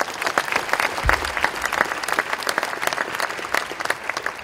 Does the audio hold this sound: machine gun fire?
no